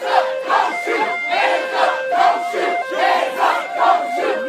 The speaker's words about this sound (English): Sound from Charlotte, North Carolina, last night, protests after a black man was killed in a police shooting.